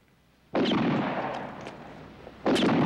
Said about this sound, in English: A guard on a watchtower practices firing at a target.